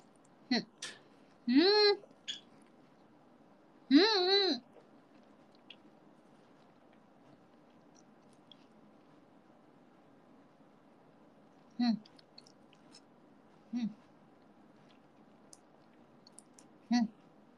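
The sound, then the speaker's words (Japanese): Mouth sounds of someone eating udon noodles with yuzu shichimi spice added straight from the packet, undissolved: a cluster of wet clicks and short voiced sounds early on, then three brief, separate chewing bursts with quiet gaps between them. “このね、私マジで溶かさずに口にゆず七味そのまま麺と一緒に放り込むのがめちゃくちゃ好きなの。食べていこうと思います。”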